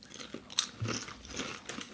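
A faint, brittle crunch as someone bites into Lay's sausage sandwich flavoured potato crisps: one sharp snap followed by a few softer chewing crunches.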